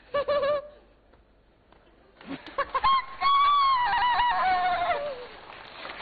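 A person vocally imitating a hen clucking, mimicking barnyard fowl: a few short choppy squawks, then a louder, drawn-out cackling call that wavers and drops in pitch at the end.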